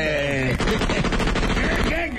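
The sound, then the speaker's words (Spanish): Gunshots being fired in a dense, rapid run of loud bursts that fills the whole clip, with voices mixed in. “¿Por qué estás tirando balazos?”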